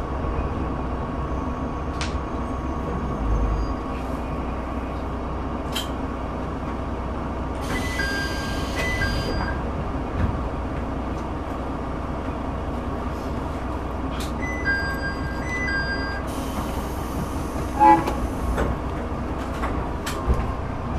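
A train pulls into a snow-buried rural station in Tsugaru, Japan, during a blizzard, giving a low, steady rumble throughout with a few stretches of high, thin tonal beeps partway through.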